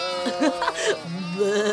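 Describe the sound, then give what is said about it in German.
Sheep and lambs bleating: a few wavering, mid-pitched bleats, ending in a longer, steadier call. “Die Schafe bleiben ruhig. Wie zutraulich die Lämmchen sind.”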